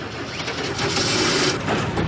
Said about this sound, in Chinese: 黑木斯开动了摩托车，两个人又向相反的方向奔去。